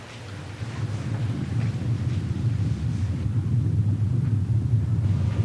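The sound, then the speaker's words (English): Low, continuous rumble of an approaching tornado, swelling slightly at first and then holding steady, with a wind-like hiss above the deep roar. “I think it's coming. The tornado's here!”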